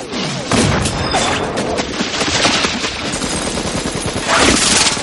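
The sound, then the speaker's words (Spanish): Gunfire in a shootout scene from the 1999 science-fiction film The Matrix, with Agent Smith advancing while shooting. Loud, dense bursts of rapid shots run almost without pause, mixed with crashing impacts and a heavier surge near the end. “Smith se acerca disparando.”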